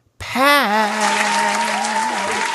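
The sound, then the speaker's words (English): Audience applause welcoming a guest onto a talk show, starting in a sudden loud burst of dense clapping that holds steady throughout, with a long held cheer-like tone riding above it. “Would you put your hands together and help me welcome to the show”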